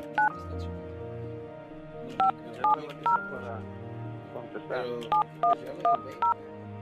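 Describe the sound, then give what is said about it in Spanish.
Keypad tones of a telephone number being dialed, sharp, even beeps in two quick runs separated by a pause, with a low murmur of voices underneath. “A ver, déjame le cuelgo rápido y le marco de volada.”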